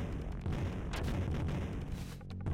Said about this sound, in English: Oh, there's somebody up there throwing grenades? Who's up there? What's going on? Oh, I've got grenades.